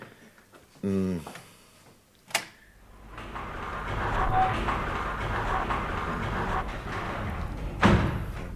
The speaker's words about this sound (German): Die Jalousie